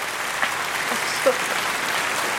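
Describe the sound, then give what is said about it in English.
Applause rolls steadily through the whole stretch, a dense, even wash of many hands clapping at moderate level, with a couple of faint brief tonal blips over it. “I think there's some applause waiting for me.”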